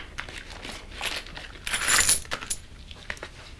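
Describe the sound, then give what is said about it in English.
Coins spill out of an envelope with a soft metallic jingle: a few light clinks, then a louder rattling cascade midway, then scattered settling chinks. “Tom empties the coins from his envelope.”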